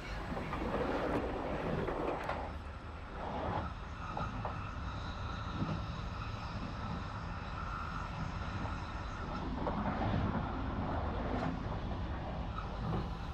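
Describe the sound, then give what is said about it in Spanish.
Steady, loud rumble of a night train heard on board on a route toward Asturias in Spain, a dense continuous roar with a slight swell near the end and no clear voices. “Una vez a bordo comienza el bullicio habitual de cualquier tren nocturno.”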